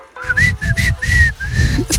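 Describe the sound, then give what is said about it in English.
Whistling of a cowboy tune by someone walking into a bar, a bright melodic line in short phrases of sustained and gliding notes over a low rumbling noise, fairly loud throughout. “He walked into a bar whistling a cowboy song.”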